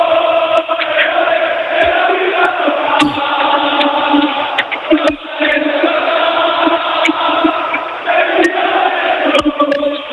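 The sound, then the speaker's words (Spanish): Málaga football fans roar and chant in celebration of promotion to the first division after eight years, with players still celebrating on the pitch. The crowd noise is loud and sustained throughout, with scattered sharp claps. “Y este es el sonido de la afición del Málaga, porque están todavía todos los jugadores aquí, saltando, celebrando que el Málaga jugara en primera división 8 años después.”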